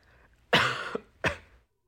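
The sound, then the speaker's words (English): A sneeze bursts out in two sharp, breathy blasts: a longer first one, then a short second one a moment later. Both are loud against otherwise near silence, and no one speaks. “Oh, you just sneezed on me.”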